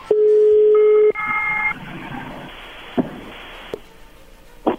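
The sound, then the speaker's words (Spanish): A telephone number being dialed: a steady tone sounds, then a short run of dialing beeps, followed by a few faint clicks and taps with quiet gaps between them. “Muy bien, pues vamos a llamarle a Cintia”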